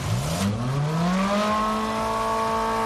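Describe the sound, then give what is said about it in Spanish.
Ferrari Roma sports car engine accelerating, a smooth, strong engine note climbing in pitch through the first half, then holding a steady high whine, continuous and fairly loud with no voices. “Suena bien, ¿eh? Es el Ferrari Roma.”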